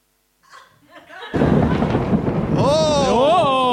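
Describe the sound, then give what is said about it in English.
A thunder sound effect plays from an unlocked phone at a live event. Soft crackles lead into a sudden loud, rumbling crash that keeps roaring. A wavering tone rises and falls over it near the end. “You see, what you heard there was the lightning and then the thunder afterwards, you see. So and it was meant to be like that.”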